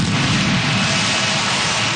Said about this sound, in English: Some fireworks there in Nashville